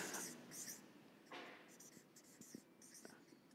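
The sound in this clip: A pen scratches on paper as someone writes the German word 'genießen' by hand. Several short, faint strokes and scrapes follow one another with soft pauses between them.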